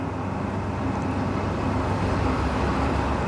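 Car driving, heard from inside: a steady, even rumble of engine and road noise that stays constant with no breaks.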